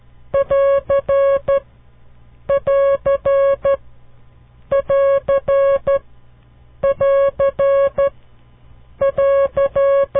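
Morse code sign for the end of a transmission is keyed five times in a row. Each group is a crisp pattern of short and long beeps on one steady, buzzy pitch, with short silences between groups.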